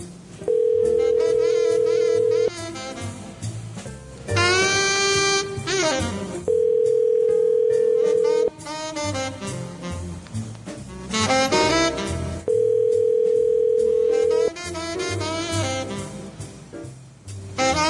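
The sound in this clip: Telephone tones while a call is placed: three long, steady mid-pitched tones, each about two seconds, recur at regular intervals, with busier, fuller sound filling the gaps between them.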